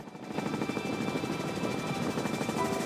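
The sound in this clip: A helicopter in flight over desert gives a steady, rhythmic rotor thrum with a constant engine whine. It holds an even level throughout, with no voices.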